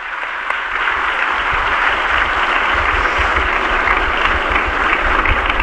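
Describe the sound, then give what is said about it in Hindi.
Loud, dense applause from an audience at a public event honouring the Prime Minister, sustained evenly for several seconds with no speech. “تالیاں۔”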